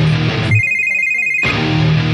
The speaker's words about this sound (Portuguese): Ligando para a sua ex.